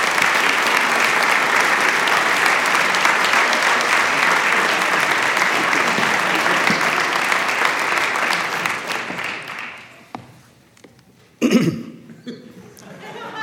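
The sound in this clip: Loud, sustained audience applause welcomes a speaker to the platform at a morning gathering. It holds steady for about nine seconds and then tapers off into quiet, followed by a single cough and a few faint rustles.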